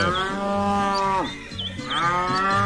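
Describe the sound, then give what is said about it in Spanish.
A cow moos while being milked on a farm in the rain. Two long, loud, rich moos are separated by a short dip, with no talking. “Y ve a Ovidio mojándose con impermeable y ordeñando la teterona.”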